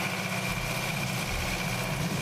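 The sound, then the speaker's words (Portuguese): A tractor engine idles as farm machinery, giving a steady, even low rumble with a faint mechanical hum on top, unchanging from start to finish, with no voices. “Esse é o barulho do trator, do maquinário.”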